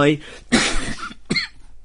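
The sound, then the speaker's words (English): Rough coughing from a person, two harsh bursts after a short voiced sound, the first burst longer and stronger than the second. “ignore my cough.”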